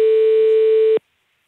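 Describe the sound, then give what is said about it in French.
A telephone ringing tone, heard while calling a company's landline, sounds as a single loud, steady electronic tone that lasts about a second and then cuts off abruptly into silence. “Et donc ici, on appelle sur le numéro fixe de l'entreprise.”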